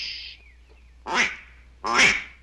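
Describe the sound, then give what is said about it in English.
A duck call blown to attract ducks gives two loud, raspy, quacking blasts separated by a short pause. “It's not a song. It's a duck call to attract ducks.”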